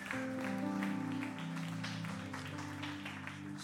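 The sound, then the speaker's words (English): Church audience applauding to welcome a speaker to the stage, a dense steady patter of claps running under sustained music tones throughout. “If you could give him a hand as we welcome him up.”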